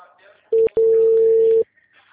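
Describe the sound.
Ringback tone of an outgoing telephone call that ends in voicemail: a steady mid-pitched tone, briefly broken just after it starts, then held for nearly a second before cutting off into quiet.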